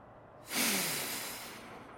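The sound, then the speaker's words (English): A single slow breath drawn in through the nose, a soft airy hiss that starts abruptly after a moment of quiet and gradually tapers off. Faint, and with no talk over it. “Let's breathe slowly in through our noses.”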